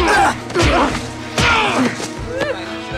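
Punches landing in a fistfight between two boys, one straddling the other: a few heavy smacks and thuds mixed with strained vocal sounds.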